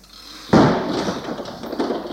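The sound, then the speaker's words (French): A door is shut with a single heavy thud. The sharp impact gives way to a lingering, uneven rumble that fades slowly, with a smaller bump shortly after. “Elle ferme la porte.”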